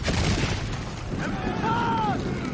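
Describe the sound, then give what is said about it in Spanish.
Many catapults launch stones at a city wall during a medieval siege battle, producing a dense, continuous roar of booms and crashes, with wavering whistling tones in the second half. “Los musulmanes disparan multitud de catapultas.”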